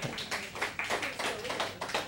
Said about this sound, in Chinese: 来给这位朋友掌声鼓励一下